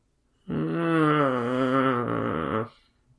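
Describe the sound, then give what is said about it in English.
A deep, voiced groan rises out of silence and holds for about two seconds near a road of yellow brick. It stays low and steady with a slight wavering in pitch, then stops abruptly. No other sounds are present. “she was startled to hear a deep groan nearby.”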